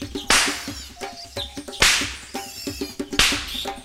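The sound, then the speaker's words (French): A small whip cracks around a cooking fire: three loud, sharp snaps spaced roughly one and a half seconds apart, with lighter clicks and taps between them and no voices. “prit un petit fouet et le fit claquer tout autour du foyer.”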